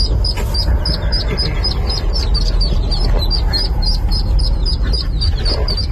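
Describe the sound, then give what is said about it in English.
Baby ducklings peep while stuck in a grate awaiting rescue: many rapid, high, shrill cheeps repeat without pause over a rumbling background noise. “that's all the baby duckies that are, you know, stuck and hoping to be rescued, and they were all rescued”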